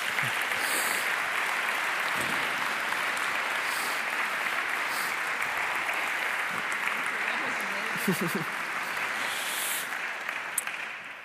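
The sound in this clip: Sustained audience applause welcomes a guest at a Christian gathering, dense steady clapping lasting about eleven seconds and easing slightly at the close.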